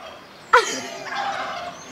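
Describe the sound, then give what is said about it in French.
A turkey lets out one sudden, loud gobble, a rapid warbling burst that trails into a fainter rattling call before fading. “Tu veux que je te fasse le cri du dindon ?”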